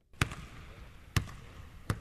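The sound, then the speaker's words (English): A basketball bounces three times on the court while a player on the Greek team Panathinaikos shoots baskets before practice. Each bounce is a sharp, solid thud, unevenly spaced, with a faint lingering echo between hits. “Mike Batiste watches as a teammate shoots baskets before practice.”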